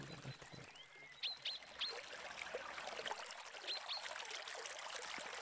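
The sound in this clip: Flowing water trickles and splashes steadily and quietly, with a few short, high bird chirps over it.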